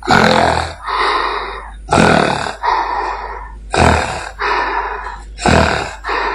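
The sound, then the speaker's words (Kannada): A voice imitates an old man snoring in his sleep: four loud cycles, each a harsh, rasping snort on the inhale followed by a softer, rumbling exhale, in a slow and even rhythm. “ಆಗ ಅಜ್ಜ ನಿದ್ರೆಗೆ ಜಾರಿದರು. ಅಜ್ಜ ನಿದ್ರೆಯಲ್ಲಿ ಗೊರಕೆಯನ್ನು ಈ ರೀತಿ ಹೊಡೆಯುತ್ತಿದ್ದರು.”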